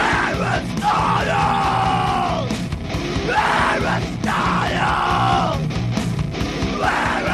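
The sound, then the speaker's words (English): A man yells loudly into studio doors in repeated rough, bellowing bursts. The hoarse shouts rise and fall over a constant noisy background. “He used to come to the studio and yell into the doors the whole time recording the show.”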